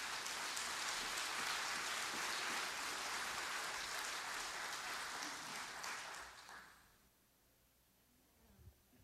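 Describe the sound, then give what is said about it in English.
Audience applause welcoming a speaker to the pulpit during a church service: dense, even clapping for about six seconds, then a quick fade to near quiet. “So would you put your hands together and welcome to the pulpit, Michelle Pleasant.”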